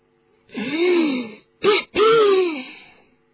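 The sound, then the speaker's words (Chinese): A man coughs in three throaty, voiced bursts: a long one, a short one, then another long one, with quiet between them. “就听德斯里姨父又咳了几声”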